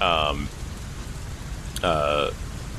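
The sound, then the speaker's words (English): Rain from a storm, a steady hissing wash of noise that runs through the whole clip, broken twice by brief, high-pitched voiced sounds that fall slightly in pitch. “so now it's like storming and raining and there's mud everywhere”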